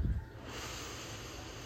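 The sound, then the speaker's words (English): A slow, deep breath in during a guided breathing exercise: after a brief soft puff at the start, a steady, airy hiss is drawn in evenly and held at a constant level to the end. “Take a slow, deep breath in,”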